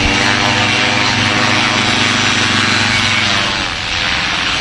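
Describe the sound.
An engine drones as it powers a tandem glider launch: a loud, steady, buzzing roar with a rough, propeller-like texture that holds nearly level throughout and dips briefly near the end.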